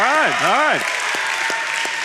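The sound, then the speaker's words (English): Audience clapping and cheering at a live talk, a brief voice at the start giving way to a dense, steady spread of applause with a few sharper individual claps standing out. “I need you to clap and cheer if you either currently have a job or if you are looking for a job. Clap and cheer if that's you.”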